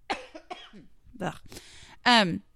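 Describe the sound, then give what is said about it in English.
A person coughs a few times in short, separate bursts, with brief breathy throat sounds between them and a louder, harsher final cough. “Excuse me, I'm about to cough again, so I need to go pause it.”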